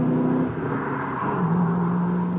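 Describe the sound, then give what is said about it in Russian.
A foreign car pulls away sharply from a rain-soaked square, throwing up spray; a loud, sustained engine roar steps up in pitch partway through as it accelerates. “Машина резко сорвалась с места, подняв фонтан брызг, которые тут же смешались с каплями дождя.”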